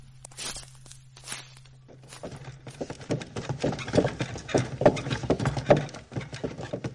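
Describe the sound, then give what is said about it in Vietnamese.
Slow, rhythmic hoof steps of an ox cart plodding along and swaying, many even clops at a steady walking pace, preceded by a low steady hum in the opening seconds. “Xe bò đi chậm lắc lư”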